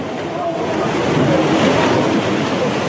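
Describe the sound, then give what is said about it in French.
A giant tsunami wave surging ashore at Miyako in northeastern Japan as cars are still on the road: a loud, continuous rushing roar of churning water that holds steady throughout. “Dans un vacarme assourdissant, la vague géante déferle alors que certains automobilistes sont encore au volant de leur véhicule.”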